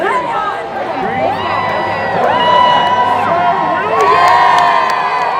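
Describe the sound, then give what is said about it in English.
Crowd cheering and shouting for a jouster at a festival jousting arena. Many overlapping voices, including higher children's calls, whoop and holler, and the noise swells louder in waves through the second half. “People from all over the festival grounds gathered around the jousting arena. Each corner was given a jouster to root for, and our section cheered on the valiant Sir William.”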